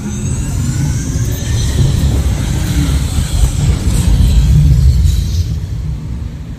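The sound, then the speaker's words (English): Steady, loud engine rumble and broad roar of a simulated car driving off-road in extreme weather, continuous throughout with gentle swells in intensity. “Commencing SimCar off-road and extreme weather sequence.”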